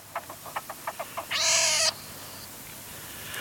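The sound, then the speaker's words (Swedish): Marten kits call: a quick run of short, high chirps, then one longer, harsh, squalling cry, followed by near quiet. “då måste vi lyssna lite på hur det låter om mårdungar. Var det något sånt där du hörde? Det var precis så.”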